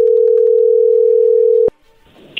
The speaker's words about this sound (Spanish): ahí entró la llamada